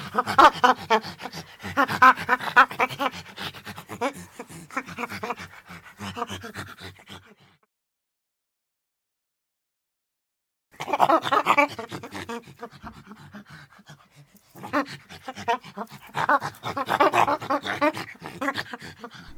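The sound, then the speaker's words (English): An excited monkey making rapid, breathy panting calls in rhythmic bursts, broken by a few seconds of silence midway before the calls resume. “It was just some audio of a monkey being excited.”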